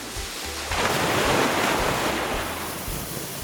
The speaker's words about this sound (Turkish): Şimdi kuyruklarımızı bir kaşık gibi yapıp içlerine su dolduralım. Ve 3, 2, 1 gönder suyu.